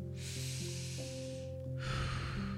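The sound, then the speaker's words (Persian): Deep inhaled breaths during a meditation session, two long, airy hissing draws, the second starting after a short pause, over a soft, steady musical drone. “چند نفس عمیق بکشین دم میگیریم”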